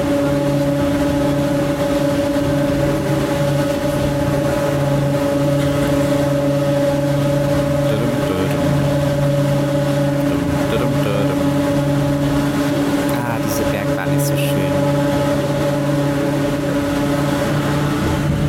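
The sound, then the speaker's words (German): A car drives through a tunnel, its engine and road noise forming a steady, even drone with a low hum held throughout and no clear breaks. “Wir fahren übrigens gerade durch so einen Tunnel, von dem ich gerade erzählt habe.”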